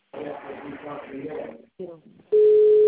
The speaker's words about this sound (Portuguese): Não, tem alguém ligando para alguém. Quem tá ligando aí?